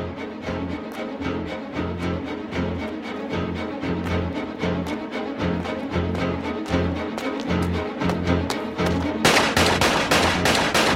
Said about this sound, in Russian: Вновь стреляет. Зря патроны тратишь.